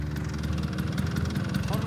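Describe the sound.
Vespa scooter engines from a club of riders putter off together, a steady low, pulsing drone with a slight rhythmic throb.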